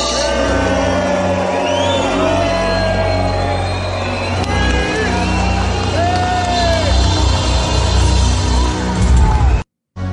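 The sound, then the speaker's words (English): A large crowd boos at a live event, a dense, steady roar of disapproving voices with scattered shouts that holds throughout before cutting off abruptly near the end. “a lot of boos going on there. Not a lot of cheering.”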